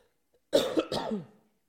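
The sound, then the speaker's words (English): A single hoarse cough from a person who is ill, breaking into two quick, rough bursts with a throaty rasp, loud and alone against silence. “Of course, I can't take away the cough, even on digital form. It's still bothering me right now”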